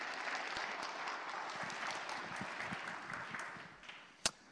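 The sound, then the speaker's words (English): An audience applauds to welcome a speaker with dense, steady clapping that thins out toward the end and finishes with a single sharp click. “And so why don't we give a warm hand of welcome to Josh.”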